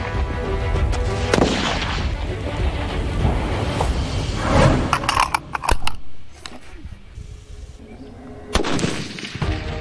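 Gunshots fired on a training range: several sharp, loud cracks over a dense, steady background roar.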